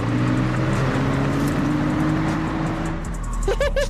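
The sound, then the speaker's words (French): A car making a handbrake turn: a steady, loud engine drone with a whining tone, then brief, wavering tire squeals near the end. “Un petit coup de volant et tu freines à main.”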